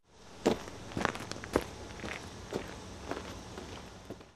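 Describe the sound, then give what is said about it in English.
Footsteps of someone walking to school, with even, unhurried steps in a steady rhythm and moderately loud heel strikes across the stretch. “Walk to school.”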